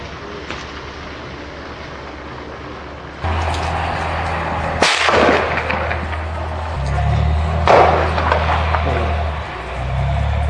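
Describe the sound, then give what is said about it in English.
Army gunfire: a few sharp, isolated cracks spaced seconds apart, the two loudest in the second half. A steady low mechanical hum sets in partway through and runs beneath them. “Just shooting, just to surprise the small people.”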